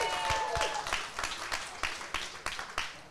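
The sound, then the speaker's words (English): An audience applauds football players at a live sports radio show, a steady, dense patter of many hands clapping that stays fairly faint throughout. “Y'all make some noise one more time for Tyus Bowser, Jadeveon Clowney.”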